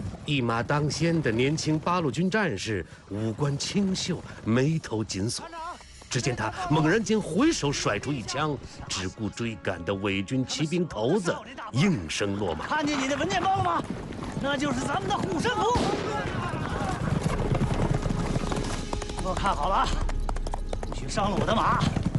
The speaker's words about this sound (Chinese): 飞奔的马蹄，勾起滚滚黄尘，让人看不清究竟。